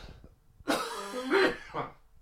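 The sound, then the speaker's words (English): Coughing: three harsh, throaty bursts in quick succession, each cough loud and rough like clearing the throat, separated by short quiet gaps. “I'm coughing my lungs up at the thoughts of it.”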